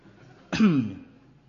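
A single throaty cough with a sharp onset that quickly fades out.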